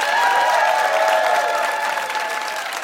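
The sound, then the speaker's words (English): An audience applauds and cheers in a noise vote for a tie, with loud sustained clapping and some whooping above it, easing slightly toward the end. “All those in favor of a tie right now between Seth Godin and Michelle Young, let's make a lot of noise.”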